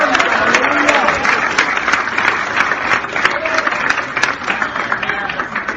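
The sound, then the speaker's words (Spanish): Congregation applauding during a Pentecostal church service, a steady and loud wash of clapping mixed with crowd voices, sustained evenly from start to finish. “Apláudale a Dios, que Dios es bueno. Si no, yo voy a aplaudir por usted en esta hora.”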